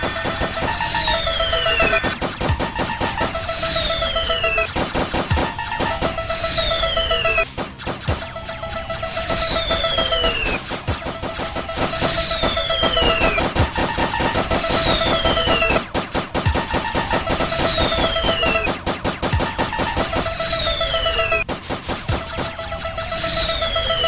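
Video-game gunfire crackles in a loud, dense, continuous stream. Bright synthetic whistles repeatedly sweep downward in pitch every couple of seconds over the steady rattle of shots.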